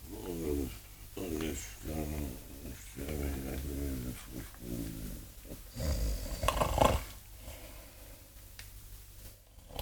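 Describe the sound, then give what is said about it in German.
A man snoring in a drama scene: a run of rough, rasping snores in a steady rhythm, moderately loud, followed by a louder noisy burst near the end. “der Tote schnarcht ja. Hier liegt irgendein lebendiger Lümmel.”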